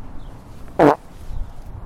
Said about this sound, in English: Hold on, I'm going to fart in the mic.